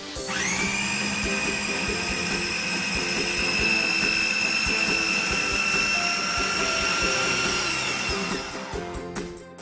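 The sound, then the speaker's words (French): A blender runs with fruit inside, its motor spinning up quickly to a steady, loud, high whine that holds evenly for several seconds before cutting off near the end. “tout mettre dans le mixeur, tourner le bouton,”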